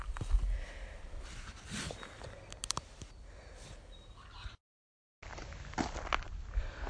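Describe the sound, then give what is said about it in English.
Quiet footsteps on a hike toward a summit: soft, irregular steps at low volume, broken by a short silent gap before the steps resume. “I think I'm going to pause for a little while now and just walk quietly.”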